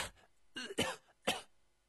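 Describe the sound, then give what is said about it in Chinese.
Violent coughing in a dramatized scene: a few harsh, raspy bursts in quick succession, fairly faint, with short gaps between them. “冯松涛突然一阵剧烈的咳嗽，吐出了几口殷红的鲜血”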